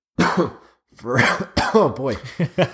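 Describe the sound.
Coughs and throat-clearing from one person, in several short, voiced bursts that come after a brief opening cough, the later ones closer together.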